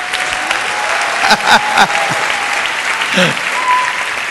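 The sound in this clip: Congregation applause at a Sunday morning church service, welcoming viewers in other rooms: a dense, steady wash of clapping with a few voices rising over it midway.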